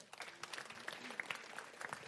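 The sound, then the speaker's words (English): An audience claps, a steady, fairly faint patter of many hands that lasts about two seconds without a clear break. “Let's clap for that.”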